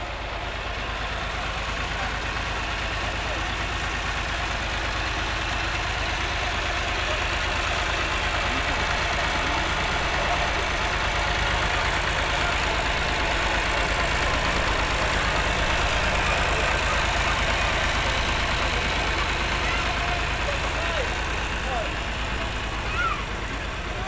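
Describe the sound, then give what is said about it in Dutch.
A tractor drives past a town square in front of a library during a street event with a pirate ship, giving a steady, droning engine rumble that holds at an even level throughout. “komt de trekker weer voorbij.”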